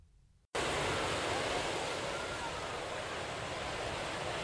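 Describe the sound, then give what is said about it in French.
Beach waves wash in a steady, full roar of surf that begins abruptly after a brief quieter moment and then runs on without pause at an even level. “Waouh, c'est trop chouette d'être à la plage. Oui, c'est reposant.”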